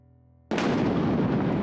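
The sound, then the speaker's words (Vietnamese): A sudden loud thunderclap during a storm with strong wind and rain breaks a near silence. It turns into a sustained, heavy rumbling roar that holds to the end. “Một tiếng sấm lại rền vang, cửa sổ bị gió lật tung, va đập ầm ầm.”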